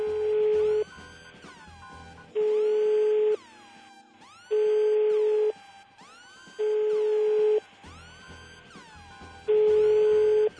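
Repeated telephone line tone on a call to an anti-violence helpline after pressing menu option 1: five steady, mid-pitched buzzing bursts, each about a second long, separated by longer silent gaps.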